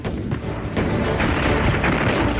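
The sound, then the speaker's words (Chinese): Artillery fire from a concentrated barrage on a cluster of bunkers at a water-distribution station in a civil-war battle. The sound is loud, dense rumbling and booming with overlapping blasts, and no single shots stand out. “东北野战军炮兵集中火力射击国民党军配水池地堡群，4发命中。”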